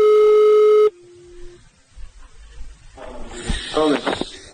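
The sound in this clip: A steady, buzzy electronic line tone opens a recorded phone call placed by an agent attributed to Israeli intelligence to Iranian military commanders. A loud tone under a second long drops to a quieter, lower tone, then noisy voices on the line follow.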